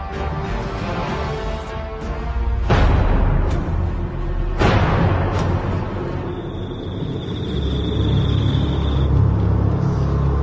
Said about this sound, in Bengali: গাড়ি চলছে